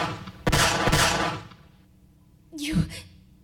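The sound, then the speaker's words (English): A gunshot: two loud, sharp blasts close together with a brief roaring tail, then a short, strained vocal gasp after a pause. “You shot me. I had to, okay? I freaking had to!”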